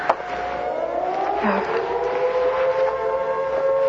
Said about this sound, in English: And that siren means you go.